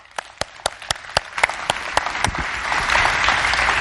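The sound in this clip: A church audience applauds a guest preacher, beginning with a few sharp, separate claps that swell into steady, dense applause.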